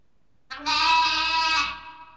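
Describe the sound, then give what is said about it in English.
A lamb bleats once, a single drawn-out, fairly high, quavering cry heard on its own against silence. “Lambs. L. Lambs. They're lambs.”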